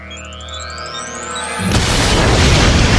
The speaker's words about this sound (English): had planted some bombs on the bikes, blew them up